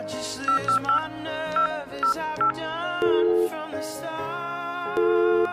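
Electronic telephone tones as a call is dialed, a run of short beeping notes at varied pitches over sustained tones, with two longer held notes later on.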